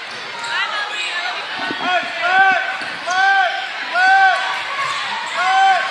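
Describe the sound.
A basketball is dribbled on a court during a game: a few rhythmic bounces over roughly six seconds, with a voice talking throughout.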